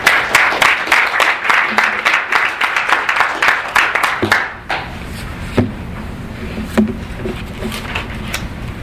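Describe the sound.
Audience applause welcoming a speaker to a conference panel: dense, steady clapping for several seconds that thins to a few scattered, sparser claps near the end.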